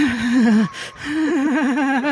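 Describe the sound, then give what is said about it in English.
A person vocally imitates the creepy heavy breathing of an orc in a video game with two drawn-out, wavering groans, loud and alone, split by a brief breathy gap. “it's all screams or grunts, and it's just like, or it'll just be like do that like some creepy heavy breathing, just like,”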